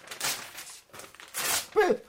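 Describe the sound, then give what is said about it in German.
Sheet music is torn up in a few rough, papery ripping bursts, with a short voiced sound at the end. “Die Noten zu zerreißen?”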